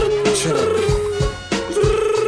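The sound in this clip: A telephone rings with a steady electronic tone that repeats in short pulses, fairly loud, with low thumping beats underneath.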